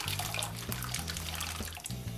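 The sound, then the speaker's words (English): Almonds poured into a bowl of filtered water make a steady splashing, trickling wash that runs without pause for about two seconds, with no talking. “So into a bowl filled with water, preferably filtered water if you can, we're gonna pour in our almonds.”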